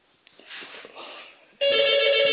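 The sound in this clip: A telephone starts ringing after a stretch of low, murky background noise, then holds a loud, steady electronic ring tone right up to the end.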